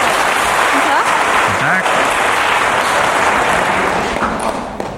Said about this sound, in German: Ein Applaus, das finde ich schön.